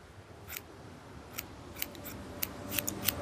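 Crisp snips of scissors cutting a child's hair, several short, sharp cuts at an uneven pace, fairly quiet and with no talk over them.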